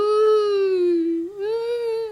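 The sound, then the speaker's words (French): A voice acts out heavy sobbing crying for a marmot lost in a snowstorm: one long, unbroken tonal wail that sags slowly in pitch, catches briefly, then lifts again, loud and alone. “Perdue dans la tempête de neige, Compote pleure à gros sanglots.”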